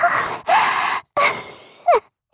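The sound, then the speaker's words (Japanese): Heavy, ragged panting comes as four loud breaths in a row, each rough and airy with a moaning, voiced edge. The last breath is short and sharp like a gasp. “息遣い、はぁはぁって荒くなっちゃってますね。”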